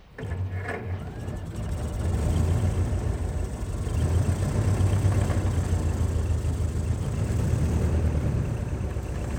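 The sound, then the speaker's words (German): A car engine is restarted and keeps running. A low, rough rumble swells over the first two seconds, then settles into a steady, loud drone that lasts to the end, with no talking. “Ich warf den Wagen wieder an.”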